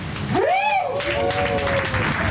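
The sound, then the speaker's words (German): Dense, steady audience applause on a comedy boat touring a harbour. A voice calls out over the clapping, rising and falling in pitch. “Ja, machen wir nochmal einen großen Applaus.”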